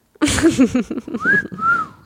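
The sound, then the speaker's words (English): Person whistling: after a moment of low voiced sound, a clear high whistled note slides upward, holds, then dips slightly in a second longer note. “Let's all try to whistle for the next 10 minutes.”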